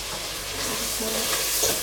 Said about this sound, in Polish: Oczywiście nadal mieszamy.